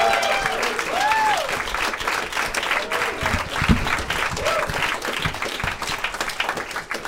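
An audience at a stand-up comedy show gives a comedian sustained, dense applause, with whoops rising above the clapping throughout.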